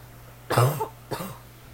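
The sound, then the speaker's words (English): Two short coughs, the first louder and longer than the second, stand alone over a faint, steady low hum. “I'm trying not to cough during this podcast.”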